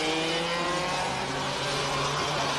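Race car engine accelerating out of turn ten on a racing circuit, a loud, steady droning roar that holds throughout with no talk over it.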